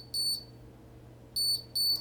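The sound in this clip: Three loud, high electronic beeps from a phone's loudspeaker, sounded to help find the phone as it sits right side up with its speaker on the bottom. A single beep is followed after a pause by two beeps close together, over a faint low hum.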